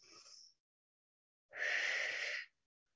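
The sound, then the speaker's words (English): A deep breath taken in during a spring meditation: a brief airy breath sound, a pause, then a longer, fuller inhalation lasting about a second, clear against near silence. “So I need to receive a breath.”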